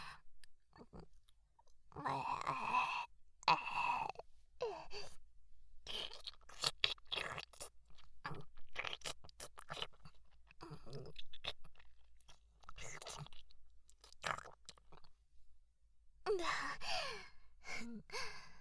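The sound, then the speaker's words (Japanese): Wet, sticky chewing as food with rice grains is mashed into a mushy paste, with many irregular smacking and squelching mouth sounds and a few soft breathy gasps and sighs. “こうやってぐちゃぐちゃのドロドロになるまで十分に咀嚼して、口開けて、”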